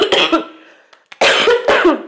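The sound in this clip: Loud coughing and throat clearing from an irritated throat, a few harsh bursts in two clusters separated by a short quiet gap.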